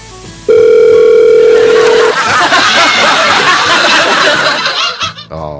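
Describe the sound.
A telephone dial tone sounds as a call is placed, a steady, loud, even tone lasting under two seconds, then giving way to a rough, noisy wash of static-like sound.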